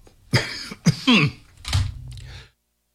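Coughing and throat clearing: a few harsh, separate bursts, one a voiced rasping clear of the throat, fading to a faint last cough before silence.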